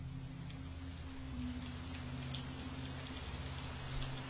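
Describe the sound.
Steady rain falls on a windy night by a graveyard, a dense even hiss of drops over a low constant rumble that stays fairly level throughout, with no voices.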